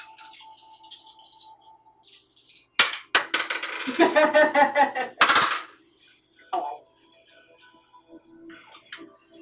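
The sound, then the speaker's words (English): Dice clatter and rattle across a table during a tabletop role-playing game: a dense burst of bright, rolling clicks lasting a few seconds, then a few quieter knocks. “Why don't you use some extra life dice, girl?”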